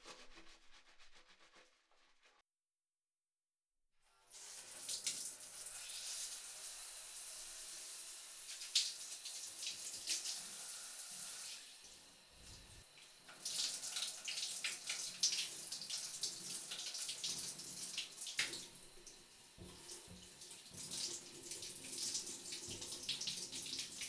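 Water runs from a tap to rinse off during a wash, a faint steady hiss and splash that starts after a short silence and continues evenly to the end.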